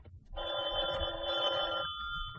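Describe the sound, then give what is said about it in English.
A telephone rings late at night in an apartment: one long, steady electronic trill that stays level in pitch, moderately loud above a low background hum. “I was just about to turn in when the phone rang.”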